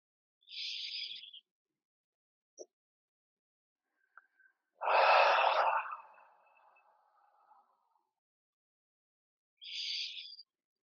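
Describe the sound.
A forceful, voiced exhale during a lung-cleansing breathing exercise: one loud, rushing breath mid-clip that trails off slowly, with shorter, hissy breaths at the start and end and a couple of tiny clicks between.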